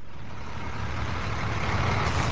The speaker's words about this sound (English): At Ground Zero, dump trucks and the now routinized bucket brigades painstakingly searched the towering debris field